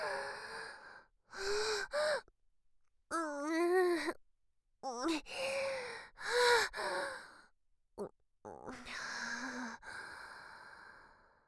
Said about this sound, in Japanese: ちょっと待って俺、今呼吸を整えるから。